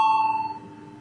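A single bell note rings in a parliament chamber to call members to a vote. The bright, clear tone starts strong and fades away over about a second, with no voices.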